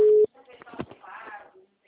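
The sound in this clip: A brief, loud, steady phone-line tone is heard while a call is being placed, cutting off abruptly before people talk.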